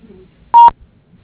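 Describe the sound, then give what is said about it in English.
A telephone keypad sends a single short DTMF dial tone as 0 is pressed in a voicemail menu. The clean, steady electronic beep sounds alone against near-silence. “If you'd like to get back to an operator, please dial 0 now.”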